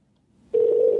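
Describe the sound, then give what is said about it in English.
A telephone tone starts abruptly about halfway through, after near silence, and holds as a steady, loud, even mid-pitched hum until the end, with no talking. “But people do seem to like when the phones ring in there. Yeah. It's like a good thing. I like the part of the show where the phones ring.”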